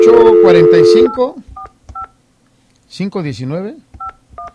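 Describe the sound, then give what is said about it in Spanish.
Touch-tone keypad beeps sound as a telephone number is dialed: four short, bright tones in two pairs. People talk before and between the pairs. “Otro número, teléfono. Otro número. Márcale al”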